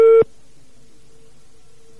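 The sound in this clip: Telephone line tone while calling a landline: one short, loud beep, then a faint, steady tone that holds to the end, with no talk.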